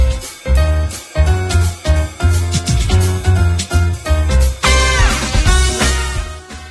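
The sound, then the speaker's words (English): Upbeat video game music plays: a remix of the Hill Top Zone theme from Sonic 2 HD, with a steady pulsing beat, bright layered melody and a busy, shimmering run of high notes near the end, continuous and loud throughout. “What you just heard there was from Sonic 2 HD.”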